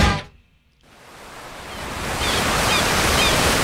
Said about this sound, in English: Every day in California, more than 11,000 surfers paddle out across our 840 miles of pristine coastline.